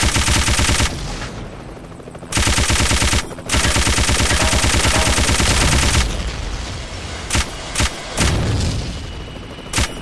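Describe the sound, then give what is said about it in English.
Machine gun fire in loud, rapid automatic bursts with brief gaps between volleys, followed by several sharp isolated shots toward the end. “Machine gun.”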